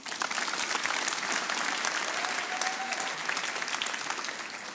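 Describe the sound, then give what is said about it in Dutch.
Test applause from a large audience at a Rijkswaterstaat market day event in Ahoy Rotterdam: dense, steady clapping that holds an even loudness throughout. “Dames en heren, gelijk even een testapplaus. Ga even horen hoe dat hier klinkt”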